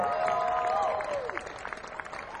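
Audience applause at a live concert at the Caverns, a dense, steady wash of clapping that holds for the whole stretch and eases slightly toward the end.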